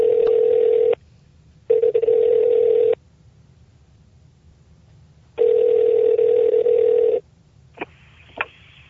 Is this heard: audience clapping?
no